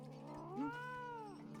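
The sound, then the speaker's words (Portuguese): A cat in an animated cartoon meows once, a lazy pet cat rather than a wild one, in a single drawn-out, tonal, fairly faint call whose pitch arches up and then gently eases down. “Ah, seu gato nem é selvagem. Ele não passa de um gatinho preguiçoso.”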